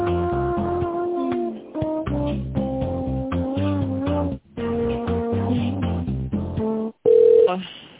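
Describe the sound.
An on-hold melody plays over a narrow-band telephone line while a business call is transferred to a tender specialist. Sustained electronic notes change in steps with brief breaks, and a louder single tone comes near the end.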